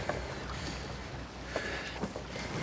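Boat ambience with a steady low rumble and wind and water noise. A few brief clatters stand out over the continuous background.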